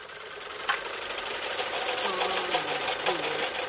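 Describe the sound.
Steady mechanical whirring of a sewing machine winding thread onto a small bobbin, running continuously at an even pace with a few faint clicks.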